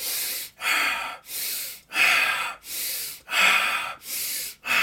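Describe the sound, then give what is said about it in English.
Big, deep, rapid breaths from a breathing exercise, with forceful inhales and exhales alternating in an even, rhythmic cycle. Each breath is loud and airy, and there is no talking between them. “So big, deep breaths, right? And I can already feel I'm kind of heating up.”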